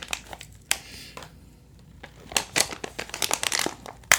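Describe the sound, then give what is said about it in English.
Crinkling of a plastic snack bag that is hard to open, heard as irregular crackling bursts that grow denser and louder toward the end, with no talking. “I can't open the bag, and I'm kind of taking that as a sign.”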